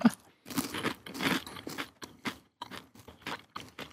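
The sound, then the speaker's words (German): Crunching and chewing of large grasshoppers seasoned with alpine herbs. Many irregular crisp bites and chomps, faint and close, with brief pauses between them. “Das sind übrigens mit alpinen Kräutern. Alpine Kräuter. Ja, man schmeckt ein bisschen alpine Kräuter. So schmeckt also Heugümper.”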